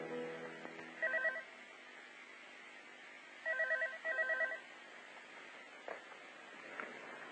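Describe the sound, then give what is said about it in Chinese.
A telephone rings in faint, trilling electronic bursts: one short burst, then a pause, then two bursts close together, over a low steady hiss. “八点钟的时候，我又被电话声吵醒。”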